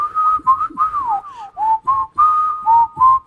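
A person whistles a string of short, clear, mid-pitched notes that rise and fall in a loose tune. The notes come in quick phrases with brief gaps between them, with no talk.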